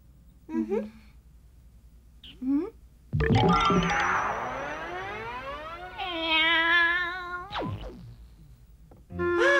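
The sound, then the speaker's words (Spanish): A cartoon cat meows near a house. Two short meows come first, then a long, drawn-out wail with climbing harmonics, followed by further sustained tonal cries. “¡Ahí está ese gato!”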